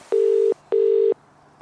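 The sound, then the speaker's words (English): A telephone being dialled gives two equal, steady, mid-pitched tones, each under half a second, separated by a short gap, over a faint background. “I think we're now, by the power of technology, about to phone everybody.”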